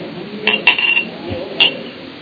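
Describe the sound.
A waiter sets plates, glasses and cutlery on a table: a few brief, bright chinks and clinks of tableware ring out over a steady background hiss.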